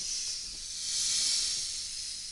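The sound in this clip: A swamp cobra, the deadly Indian snake, hisses in one steady, broad, airy stream that swells slightly in the middle and then eases, with no voices.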